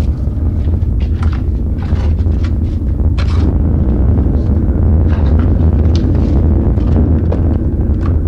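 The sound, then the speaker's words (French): Roaring draft in the chimney of a wood-fired bakery oven with a six-story flue, a steady, loud low roar that runs unbroken throughout. “Vous entendez le tirage, il y a 6 étages de cheminée. C'est pour ça qu'il y a un fort tirage.”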